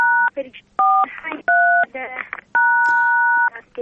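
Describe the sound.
Telephone keypad tones: four clear, loud electronic beeps of differing pitch, the last held noticeably longer than the rest, with voices and other brief sounds in the gaps between them.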